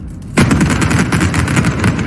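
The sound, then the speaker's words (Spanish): Explosive demolition blast bringing down the first of five old factory chimneys at the former coke batteries in Avilés in September 2023, a sudden loud crack after a brief hush, then a heavy crackling, rattling rumble that keeps going. “Era septiembre del año 2023 y con ese barrenazo caía la primera de las 5 chimeneas de las viejas baterías de Coc de Avilés.”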